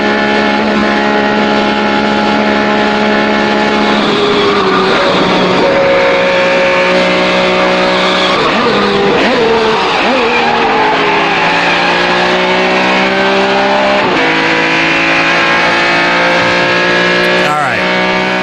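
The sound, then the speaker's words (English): Car engine revving as the driver downshifts on the way toward a square; a loud, steady harmonic drone whose pitch climbs and then drops several times through the gear changes. “on how much motor sound there is as he heads to the square. He has to, like, downshift.”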